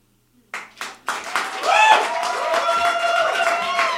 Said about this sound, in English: Give it up for Tracy Hall, everybody.